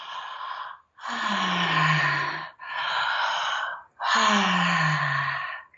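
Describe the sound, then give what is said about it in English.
A person demonstrates deep breathing in a guided exercise: four long, unhurried breaths alternate between airy inhales and exhales. The exhales carry a soft voiced sigh that falls in pitch, all fairly quiet. “So deepening your breath. So let's say if, you know, normal breath is like, you're going to go,”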